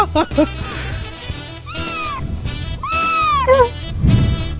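Kitten meowing while climbing up a person's leg: several high, arching cries, including two long drawn-out meows, fairly loud and clear.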